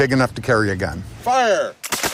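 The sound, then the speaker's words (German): Muskets of early American militia fire charges of powder only, without bullets, aimed at the treetops: a few sharp bangs stand out among raised voices. “Gefeuert wird mit Pulver, nicht mit Kugeln. Gezielt wird auf die Baumwipfel, natürlich nicht auf die Köpfe der Gegenüber.”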